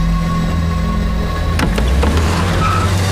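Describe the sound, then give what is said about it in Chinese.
Car speeding away with tyres squealing as a fleeing suspect escapes police in a radio drama: a steady engine roar with a sharp burst of noise midway and a brief high screech near the end. “发现冯谦就在隔壁别墅，现驾车逃跑， 查牌号平安3S19。”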